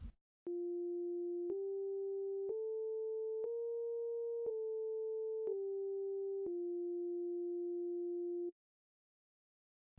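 A quiet, pure sine tone one octave above an original wave plays alone in seven stepped notes, climbing for four and then descending for three, with the last note held longest and faint clicks at each pitch change.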